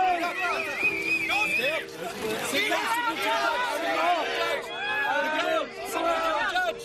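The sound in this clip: Excited crowd cheering and shouting as a freediver reaches a 122-metre Spanish national depth record, many overlapping voices loud and animated throughout.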